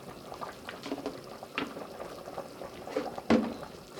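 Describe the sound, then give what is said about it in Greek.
Potatoes and carrots boiling in a pot of water, heard as a steady, soft bubbling with scattered pops and one sharper pop near the end. “Συνεχίζουμε το βράσιμο. Μέχρι να μαλακώσει καλά η πατάτα και το καρότο.”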